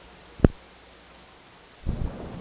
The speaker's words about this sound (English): So I'm gonna stop the tape now and turn it over.